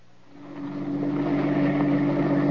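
A car engine hums as the car drives up to park near a harbor dock with a fishing boat alongside, in heavy mist. The low, steady drone grows from quiet over the first second, then holds even and unbroken, with no talk.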